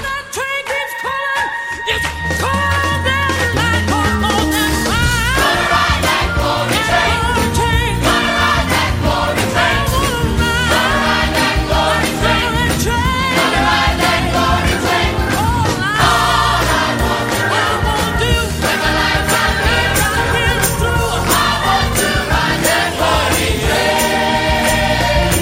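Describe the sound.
A large Montreal gospel choir sings with full accompaniment, a dense, loud and continuous wall of voices and instruments sustained throughout.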